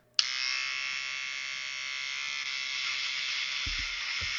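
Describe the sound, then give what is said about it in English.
Electric razor buzzing while shaving down a sideburn, switching on abruptly with a click and holding a steady, bright hum to the end, with a couple of soft low knocks near the finish. “Anyone listening to the audio podcast, he's just done a swipe, down his right side burn straight down.”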